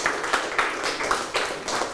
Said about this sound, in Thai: ปรบมือให้เพื่อนถูกต้องเลยครับ